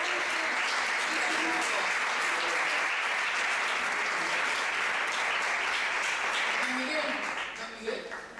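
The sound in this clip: Audience applause, dense and steady clapping from many hands that holds evenly for about eight seconds before thinning slightly at the end, with a few voices mixed in.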